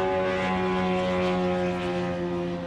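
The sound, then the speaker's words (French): A Shahed drone flies overhead at very low altitude at night near an airport in Dubai, its propeller engine giving a loud, steady, harmonic-rich buzzing drone that holds through the whole clip. “puis un premier drone Shahed qui passe à très basse altitude, juste au-dessus de nos têtes.”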